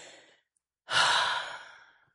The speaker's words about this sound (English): We're going to blow out all that stale overnight air that's trapped inside of the bodies. And all you got to do is simply exhale like,